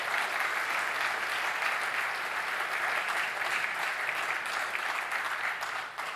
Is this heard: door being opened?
no